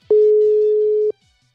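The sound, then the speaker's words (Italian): WhatsApp video call outgoing ringing tone: one steady, mid-pitched electronic beep lasting about a second, starting and stopping abruptly and followed by silence. “Avvia videochiamata. Avvia chiamata con Marco Roma. WhatsApp, ecco, riconoscimento schermo, attivo. Riduci finestra, stai chiamando, voce non attiva.”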